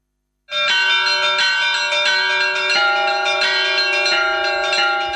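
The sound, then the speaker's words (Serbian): Church bells ring at midnight to mark Christmas, a dense cluster of bright, sustained metallic tones that starts abruptly and keeps ringing steadily and loudly, with fresh strikes layering over the lingering hum, and no voices. “Zvona sa crkvenih hramova u ponoć simbolično su oglasila trenutak rođenja Sina Božijeg Isusa Hrista.”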